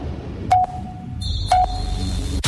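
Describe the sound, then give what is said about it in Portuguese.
A radio station's three-second time signal sounds as short, clean electronic pips spaced about a second apart, each a mid-pitched beep, joined by a higher steady tone, alone over a low background hum. “Atenção, emissoras associadas, para o toque de 3 segundos.”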